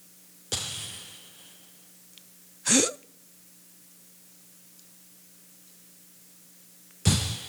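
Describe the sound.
A voice imitates a person's irregular, gasping breathing: three sharp, breathy gasps separated by long, uneven silences.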